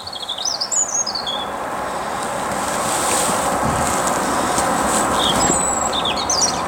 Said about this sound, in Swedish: Det är en rödhake som sjunger.